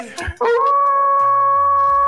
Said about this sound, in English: There we go. That's a manly wolf.